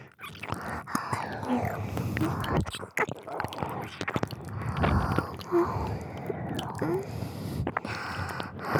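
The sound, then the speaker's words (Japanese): Wet ear-sucking and licking mouth sounds, a continuous stream of soft squishy smacks and slurps with faint breathy whispers mixed in. “お耳をしゃぶられるの気持ちよさそうですね。”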